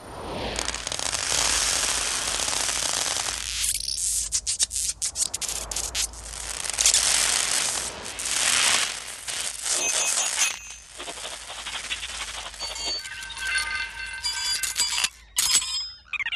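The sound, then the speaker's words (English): Dense metallic clattering and rattling from a Transformers film effect: a mechanical robot tiger dropping what looks like a thousand ball bearings down a pipe. Many rapid impacts pour out continuously, with brief pauses, and no voices are heard. “In this scene, you have something like a mechanical robot tiger that drops what looks like 1,000 ball bearings down a pipe.”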